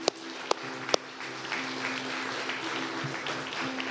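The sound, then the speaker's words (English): A church audience clapping in praise during a morning service, starting with three sharp separate claps before settling into steadier, softer applause over a low hum. “Let's just give him a clap of praise this morning.”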